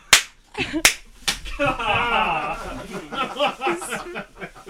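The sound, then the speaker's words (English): Sharp spanking slaps, three loud smacks in the first second and a half, followed by people laughing and talking. “At least you're not the one getting spanked.”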